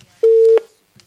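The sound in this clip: A telephone busy signal after a dropped call: one short, steady mid-pitched tone, loud and alone, followed by a faint brief blip.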